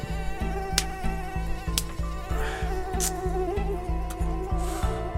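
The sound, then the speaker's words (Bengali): Mosquitoes buzz in a thin, steady whine over a rhythmic low pulsing that repeats evenly throughout, with no voices. “মশার কামড় শুরু হয়ে গেছে।”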